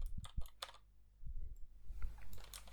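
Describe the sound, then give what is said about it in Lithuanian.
Clicky keystrokes from a mechanical keyboard with Cherry MX Blue switches, picked up through an Asus ROG Delta headset microphone, come in two quick bursts with a pause between; the typing is faint. “Dar galim pamatyti, šnekant, pabarškinti mechaninę klaviatūrą su Cherry MX Blue jungtukais.”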